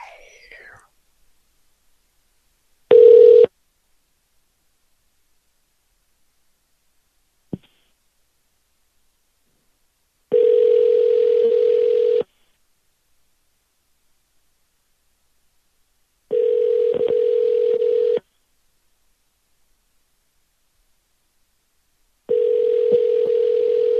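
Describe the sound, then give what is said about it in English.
Telephone line tones on a call to a bail bonds office in Pittsburgh: a short tone, a click, then three long steady tone bursts of about two seconds each, evenly spaced with silence between them, the last one cut off. “Okay, let's call this Bail Bonds in the place in Pittsburgh there. There we go.”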